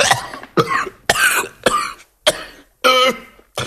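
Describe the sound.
A man coughs violently in a run of six harsh, loud bursts, spaced about half a second apart, with short silences between them and no talk.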